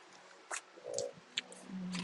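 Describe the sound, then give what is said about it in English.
Tarot cards falling out of a deck make a few soft, brief papery slaps and taps. They are faint and spaced apart, with no talk. “These cards fell out.”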